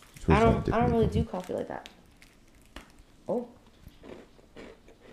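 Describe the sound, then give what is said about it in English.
Crunchy bites and chewing on a snack meant to be eaten with coffee, a few crisp crackling crunches coming between and after stretches of a person talking. “I'm gonna try it for y'all. We don't have coffee present, but you're supposed to eat them with coffee.”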